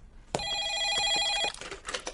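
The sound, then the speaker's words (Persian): A telephone rings in one bright, steady electronic-bell burst lasting about a second, then stops, leaving faint clattering noises behind. “آره، برو تلفن رو جواب بده”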